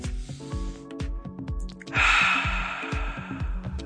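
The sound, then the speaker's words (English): A deep breath comes as a loud, airy rush that starts partway through and lasts over a second. It sits over a rhythmic musical bed with a steady beat. “It's Friday, we made it, let's take a deep breath.”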